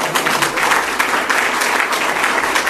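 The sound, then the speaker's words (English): Audience clapping at a speech event, applauding people seated at a center table. Steady, dense applause runs throughout at an even level, with no other sounds standing out. “We'll clap for those people at that sort of center table there.”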